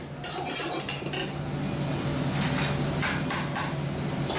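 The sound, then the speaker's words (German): Steady sizzling and clatter of dishes, pots and pans with stirring in a small, very hot restaurant kitchen where Indian curries with kingfish, okra and jackfruit are cooked. A dense, continuous wash of noise with no talk. “und schleiche mich in die Küche”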